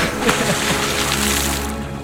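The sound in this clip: Water splashes as someone cannonballs into a pool, a loud churning wash of spray that holds fairly steady for the whole stretch.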